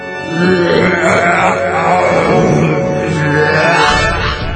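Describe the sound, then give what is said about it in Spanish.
A loud, drawn-out burp rumbles for about four seconds, its pitch wavering up and down. “soltó un eructo de proporciones gigantescas que hizo despeinar a todo el pueblo.”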